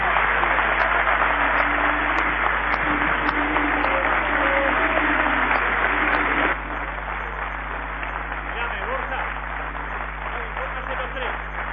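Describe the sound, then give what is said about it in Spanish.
Audience applause breaks out in a dense, steady wash of clapping with voices mixed in. It holds at a fairly loud level, then drops to a somewhat lower level about halfway through and continues. “Señores, aplauso fuerte.”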